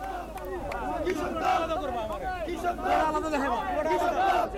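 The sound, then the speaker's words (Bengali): BNP activists chanting slogans at a rally in Naya Paltan in the capital: a dense, loud, continuous mass of voices shouting and calling together, with no pauses. “রাজধানীর বিভিন্ন unity থেকে ছোট ছোট মিছিল নিয়ে আসছেন নেতাকর্মীরা স্লোগানে স্লোগানে মুখরিত হয়ে উঠছে নয়াপল্টন”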